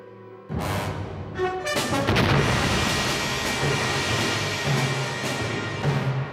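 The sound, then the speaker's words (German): Meteorite impact explosion sound effect: a loud blast bursts in abruptly and swells into a broad, sustained roaring rumble that continues for several seconds. “Was war das? Eine Explosion? Ein Meteorit.”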